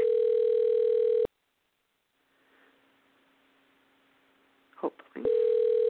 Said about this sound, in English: Should be dialing. There we go. Hopefully.